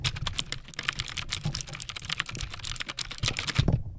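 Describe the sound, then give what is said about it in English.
Fast typing on a mechanical keyboard, a rapid, dense clatter of crisp keystrokes in an unbroken stream that cuts off near the end. “on the mechanical keyboards in the sewers, somehow hacking at insane speeds. Yes, the only thing they can do quickly is type. So they'll type super fast”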